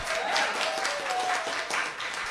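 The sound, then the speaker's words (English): Audience applause at a live gathering in Moreno Valley, a dense, steady wash of many hands clapping that stays loud and even for a couple of seconds. “By show of applause, how many of you think that would be a good interview, an interesting interview?”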